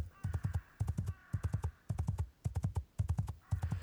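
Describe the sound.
Galloping horses: a steady, repeating pattern of quick hoofbeat clusters, each a rapid run of low thuds separated by brief gaps, heard alone without voices.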